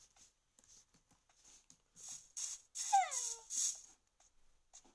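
A dog whimpers in a video game: one short whine that slides downward, set among brief, faint game sounds and soft bursts before and after.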